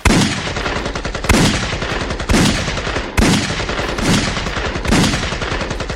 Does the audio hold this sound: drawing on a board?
no

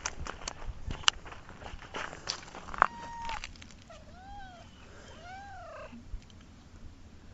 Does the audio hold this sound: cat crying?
yes

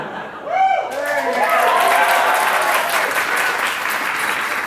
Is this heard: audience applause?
yes

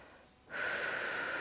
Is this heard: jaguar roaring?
no

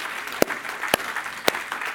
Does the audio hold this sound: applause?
yes

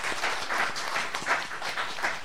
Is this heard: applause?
yes

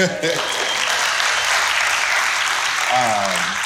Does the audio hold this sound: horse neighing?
no

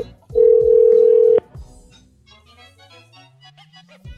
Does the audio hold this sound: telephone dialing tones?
yes

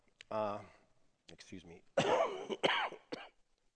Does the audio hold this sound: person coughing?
yes

